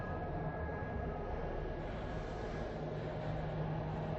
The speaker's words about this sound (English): The wheels keep chugging in the darkness.